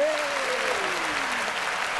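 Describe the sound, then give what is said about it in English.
A studio audience applauds as the first guest is welcomed on stage: a continuous, even wash of clapping at steady loudness, with a thin descending tone gliding downward through its first half. “Look at that. The audience goes wild. And the audience suddenly stops.”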